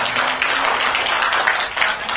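Dense, fairly loud applause from listeners at a Buddhist teaching session, a round of clapping that rewards a member of the group and holds a steady, crowded texture throughout.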